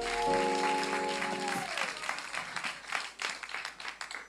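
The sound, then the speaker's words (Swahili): Audience applause for a guest on a show. A sustained musical chord fades in the first second and a half, then a dense, steady patter of many hands clapping continues. “Naomba makofi tena kwa Lydia.”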